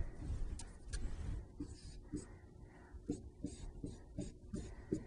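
Pen strokes scratch faintly on paper as a math expression is written out by hand, many short, soft scraping strokes in an uneven rhythm.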